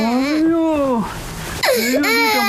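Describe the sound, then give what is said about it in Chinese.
A baby cries in two wailing bursts separated by a quieter breathy gap, each cry strongly pitched, bending up and down, and fairly loud. “这是哭啊！ 你什么哄也不行。”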